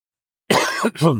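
A harsh cough from someone who has caught a nasty cough over recent weeks comes in two rough bursts, the second one shorter, after a moment of silence.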